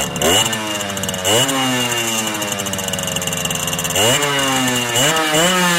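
A small two-stroke motorcycle of roughly 50 to 70 cc idles with a loud, buzzy rattle, then twice revs sharply, its pitch climbing with each rev before dropping back.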